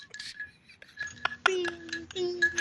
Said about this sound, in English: Gotta stir the honey. Stir the honey.